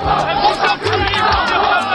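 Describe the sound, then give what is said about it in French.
Agitated crowd of about 200 young people surrounding Nicolas Sarkozy: a loud, dense mass of shouting and overlapping voices that continues without a break. “Autour, 200 jeunes, un comité d'accueil plutôt agité.”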